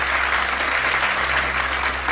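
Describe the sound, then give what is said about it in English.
Applause from a crowd of plane passengers clapping for the pilot after landing: a loud, dense, unbroken wash of many hands at a steady level throughout. “is it the applause that is given to the pilot when they actually land the plane?”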